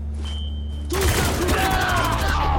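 Shotgun fire in a video game: a quiet stretch with a faint steady tone, then a sudden burst of gunfire that turns into a dense, loud, crackling barrage lasting to the end.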